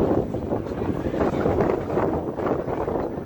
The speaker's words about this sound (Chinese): 你看到那听到那个声音吗？那个是刮风的声音，刮风的声音啊，你会听到。